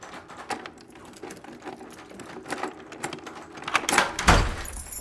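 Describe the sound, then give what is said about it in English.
A door knob rattles with a run of small, quick clicks, then a front door swings open in a louder, rougher burst near the end that trails into a low rumble. “She stops, looking frightened, as the knob rattles and the door swings open.”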